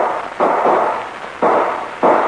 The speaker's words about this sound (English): Those were shots.